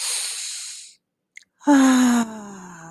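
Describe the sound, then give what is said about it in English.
Guided breathing exercise: a soft, airy breath drawn in through the nose, a short pause, then a voiced sighing exhale that falls slightly in pitch and trails into breathy air. “take a breath in through our nose, filling up our stomach, and then just pushing that air out”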